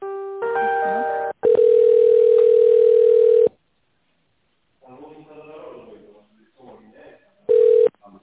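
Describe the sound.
A telephone ringback tone on a business call being put through: a brief cluster of electronic tones, then a long steady single-pitched tone, a muffled voice, and finally a short burst of the same tone.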